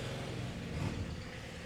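Cars driving past an apartment at night, a steady broad rumble of road noise with a slight swell near the middle, with no voices.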